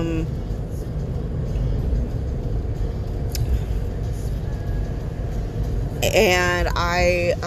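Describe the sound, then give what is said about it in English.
A steady low rumble of a car being driven in the rain fills the whole stretch with road and engine noise, and a voice speaks briefly near the end. “Sorry, I'm driving. I'm driving to my new job and,”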